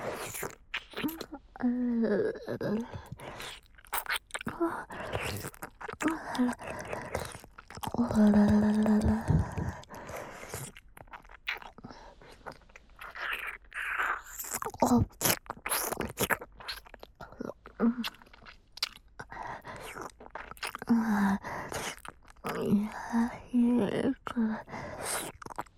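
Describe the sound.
Close, wet ASMR tongue-licking sounds, a long run of sticky smacks and slurps in irregular bursts, with occasional soft breathy vocalisations rising between them.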